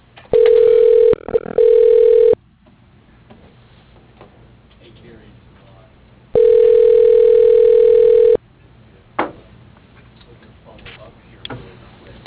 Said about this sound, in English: Dialing.